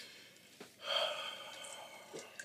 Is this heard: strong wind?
no

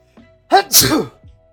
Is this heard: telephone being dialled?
no

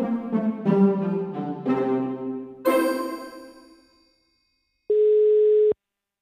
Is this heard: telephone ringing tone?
yes

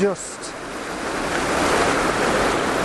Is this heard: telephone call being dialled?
no

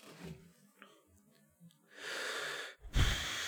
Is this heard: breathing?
yes

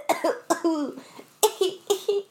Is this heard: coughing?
yes

